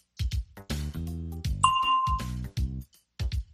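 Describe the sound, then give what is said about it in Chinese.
A single bright bell ding in a language-lesson exercise signals when to give an answer. It rings out clearly mid-clip with a short ringing tail, framed by other tonal, voice-like sounds before and after. “Listen for the bell”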